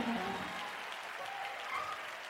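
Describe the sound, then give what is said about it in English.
A church audience clapping their hands in praise, a dense, sustained wash of applause at an even level with faint voices mixed in. “Someone ought to clap your hands and give God the praise”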